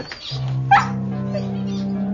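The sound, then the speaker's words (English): A dog gives a single short whimpering yip over a steady low hum, otherwise quiet. “There's a good doggy.”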